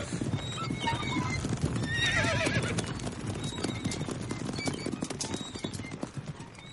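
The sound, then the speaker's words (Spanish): Horses whinny and their hooves clatter as a prince and his mounted escort set off. Continuous clip-clop runs throughout, with one loud high whinny rising above it early on. “Mi caballo. El príncipe y su escolta parten hacia Bruselas.”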